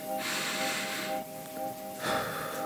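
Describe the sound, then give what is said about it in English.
Deep, slow breathing from a man counting to calm himself while unbuttoning his shirt: two long, noisy breaths with a pause between them, over a faint steady hum. “He counted and breathed deep as he unbuttoned his shirt.”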